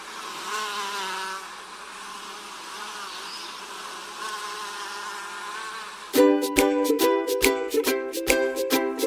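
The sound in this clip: Insects buzz in a steady droning hum that wavers slightly, heard without voices, then gives way in the final seconds to a louder, choppy run of rapid harsh pulses.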